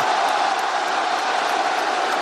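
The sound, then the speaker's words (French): A large live audience applauds itself, a steady, unbroken roar of clapping and crowd noise that stays evenly loud throughout. “C'est vous, le public, vous pouvez vous applaudir.”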